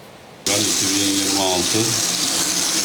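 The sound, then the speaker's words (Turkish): Muddy water gushes from a household tap on Istanbul's Anadolu side, where a storage depot fault sends mud through the pipes. A steady, loud hiss of running water starts abruptly after a brief quiet, with voices talking over it. “İstanbul'un Anadolu yakasında musluklardan adeta çamur akıyor.”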